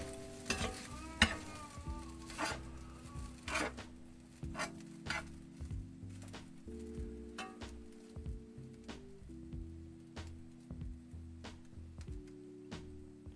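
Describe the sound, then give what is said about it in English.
Stirring a big pot of fried rice, with many brisk scraping and clattering strokes over a steady frying sizzle. “Now I have a big pot of fried rice.”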